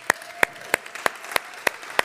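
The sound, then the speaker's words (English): Hand claps during a church service, seven sharp, evenly spaced claps about a third of a second apart in a steady unison rhythm rather than scattered applause. “Let's give everyone serving a big hand.”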